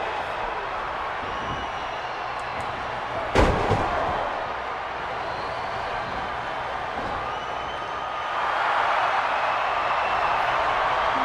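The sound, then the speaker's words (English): A wrestler's power slam onto the ring mat lands as one sharp, heavy thud over a steady wash of crowd noise. The background swells louder near the end. “And a huge power slam.”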